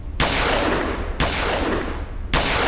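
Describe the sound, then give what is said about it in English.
Three loud gunshots, a shooter firing through loaded magazines, spaced about a second apart, each a sharp crack followed by a long rumbling decay that fills the gap before the next shot. “Her father continued shooting, burning through previously loaded magazines with a vengeance.”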